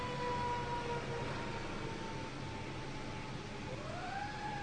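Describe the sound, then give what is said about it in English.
Wailing sirens from several emergency vehicles, faint, with a steady tone that gives way to a rising sweep near the end, over constant background noise. “Oh my goodness. Lots of emergency vehicles.”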